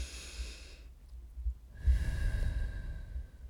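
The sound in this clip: A person breathing in and out, two long airy breaths separated by a short quiet gap, the second fuller and louder with a low rumbling edge.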